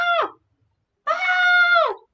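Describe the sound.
A human voice imitates a screaming, goat-like creature cry in two bleating wails, a short one and then a longer sustained one. Each wail bends down in pitch at the end and is heard alone.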